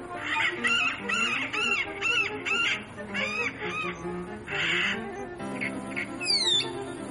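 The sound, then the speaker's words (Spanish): Many small birds trill and chirp on a summer day, with several kinds heard together. Quick, bright, repeated chirps and trills rise and fall in dense bursts over steady background noise, with no voices. “del Hudson con los trinos de los pájaros. Ahora en verano están escuchando distintos tipos, distintas variedades de pajaritos.”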